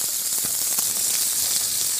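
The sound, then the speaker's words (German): Loud, steady sizzling of a piece of meat searing in a frying pan as it is turned to brown its narrow sides and ends. A continuous bright hiss runs throughout, with a few faint crackles and no voices. “Jetzt noch auf die schmalen Seiten und auf die Endseiten. Okay, also einmal richtig schön in der Pfanne durchdrehen quasi.”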